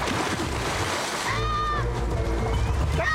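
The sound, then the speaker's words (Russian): Splash as a man jumps into a river, a churning burst of water over continuous sloshing, with a brief voice heard alongside it. “Режис бросается в воду. Подожди, я Жоэль, сейчас. Сняв штаны, прыгает вслед.”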